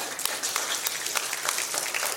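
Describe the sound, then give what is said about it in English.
Audience applause welcoming a man back among the listeners: dense, steady clapping from many hands, crisp and even throughout with no voices over it, at a moderate, fairly soft level. “Give him a big hand,”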